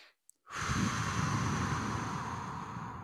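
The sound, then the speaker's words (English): A deep breath taken alone after a brief silence: a steady, breathy rush of air that holds at an even level for a few seconds, with no voices. “Take a deep breath”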